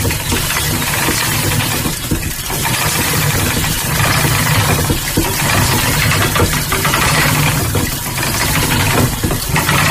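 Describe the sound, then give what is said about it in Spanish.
A spinning wheel turning at full speed gives a steady, loud mechanical whir with faint rhythmic knocking running through it, continuous for the whole stretch without pause or voices. “esta pintura de Velázquez, en las hilanderas, la rueca está trabajando, está sonando y tiene un sonido que sonaría así.”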